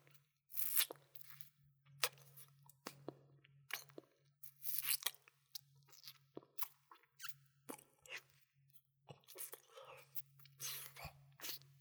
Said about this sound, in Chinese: 咸咸黏黏的，但是好好吃啊，好喜欢啊。